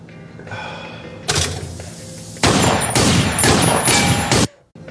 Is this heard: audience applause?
no